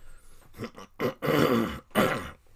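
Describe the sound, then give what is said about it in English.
Throat clearing from someone with a lingering throat problem: a few rough, rasping bursts, with a longer harsh one in the middle, fairly loud and alone without speech. “Excuse me, I still seem to have that problem with my throat.”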